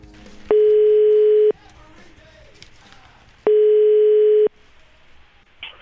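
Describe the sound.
A telephone line tone while a call is being placed: two long, steady, mid-pitched beeps, each lasting about a second and separated by roughly two seconds of near silence.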